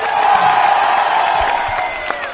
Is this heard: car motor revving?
no